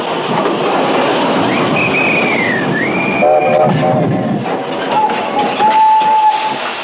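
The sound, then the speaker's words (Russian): An armoured train stops at a railway station with loud, continuous rumbling and clattering of its cars, and a whistle sounds over it, bending down and back up, with a second, steadier whistle tone later. “И по чистой случайности на станции Гребешки остановился бронепоезд командарма Седых.”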